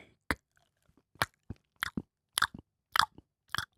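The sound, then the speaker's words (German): Chewing and crunching while eating a Philly cheesesteak: a run of sharp, irregular bites and moist chews, many short bursts separated by brief silences, with no talk. “Mmh, Philly Cheesesteak.”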